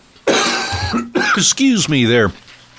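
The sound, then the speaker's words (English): Throat clearing and a cough come as a few loud, raspy, voiced bursts in quick succession, some rough and growling, others with a strained, wavering vocal tone. “as we have to cough on the air live.”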